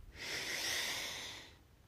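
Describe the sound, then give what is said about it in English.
One long, deep breath with a broad hissing rush of air that swells and then fades over about a second and a half. It is heard alone, with no talking. “So whatever it is that you're doing, let's take a deep breath.”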